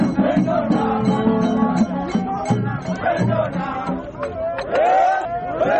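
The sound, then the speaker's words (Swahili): Gor Mahia football fans celebrate a 1-0 win over rivals AFC Leopards in the KPL Super Cup final, a loud crowd of shouting and cheering voices that swells and surges continuously with no break. “Mashabiki wa klabu ya Gor Mahia baada ya kuwalaza wapinzani wao tangu jadi klabu ya AFC Leopards kupenda chui goli moja bila jibu kwenye finali ya kombe la KPL Super Cup”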